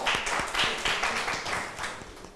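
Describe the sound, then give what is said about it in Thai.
Students in a classroom clap their hands for a classmate: a dense run of hand claps that keeps a fairly steady loudness throughout, with no talk. “เก่งมากปรบมือให้เพื่อนค่ะ”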